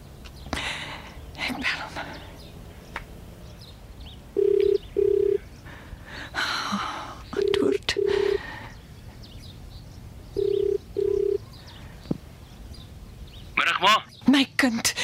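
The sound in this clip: A telephone ringing tone while a call is being placed: three evenly spaced double bursts of a low, steady buzzing tone, over faint background rustles and clicks.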